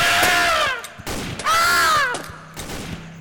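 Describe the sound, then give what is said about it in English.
Gunshots ring out in a scene of someone shooting at people: a few sharp, sudden bursts mixed with loud falling, whistling tones, all fairly loud and tightly packed together. “Should I kill them? Yes! He's shooting at us!”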